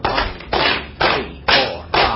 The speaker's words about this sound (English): I want you to take your hands and clap them 10 times.